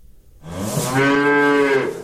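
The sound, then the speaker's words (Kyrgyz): A calf moos once in a farmyard, a single loud, sustained bovine call lasting about a second and a half, steady and throaty with rich harmonics. “Музоону короонун башына байлап койчу.”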